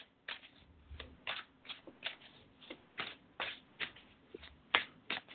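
A deck of tarot cards is shuffled in many quick, crisp riffling bursts at a fairly even pace, with a few light taps between them.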